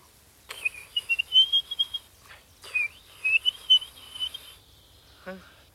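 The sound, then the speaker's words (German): A human voice whistles an imitation of a blackbird call in two bright, warbling phrases separated by a brief pause. Both are fairly faint and stand alone against quiet background. “Ich mach mal vielleicht eine Amsel nach. Denn dann kommt er vielleicht, um sie zu verjagen.”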